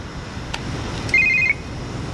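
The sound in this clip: A telephone rings as a caller tries again after being hung up on. A single short electronic ring with a bright, warbling tone sounds briefly midway, alone over a faint background hiss.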